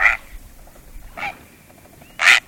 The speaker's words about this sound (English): Great flocks of snow and Ross's geese feed in the farmlands. A cloud of these white birds lifting from a field